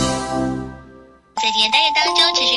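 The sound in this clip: A notification bell chime rings out and fades over about a second. A bright, busy electronic jingle follows, loud and full of high, ringing tones.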